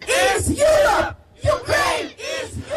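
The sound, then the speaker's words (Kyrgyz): Protesters at a street rally supporting Ukraine's EU membership shout together in three loud, rhythmic chanted bursts, the massed voices rising and falling with short gaps between phrases. “Саммит учурунда Украинаны колдогон адамдар шаардын көчөлөрүндө митингге чыгып, Украинаны Европа биримдигине кабыл алуу жараянын тездетип чечим кабыл алууну талап кылып кыйкырып”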